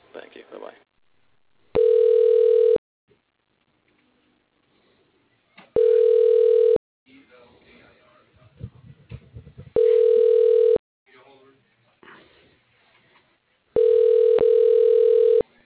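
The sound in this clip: Telephone ringback tone as a transferred call rings through to voicemail: four steady tone bursts about a second long, spaced roughly four seconds apart, with quiet talk in the gaps.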